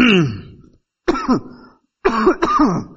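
Someone clears the throat and coughs three times, each a harsh, rasping voiced burst, the later two doubled, separated by short silences.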